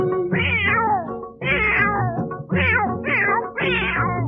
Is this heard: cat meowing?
yes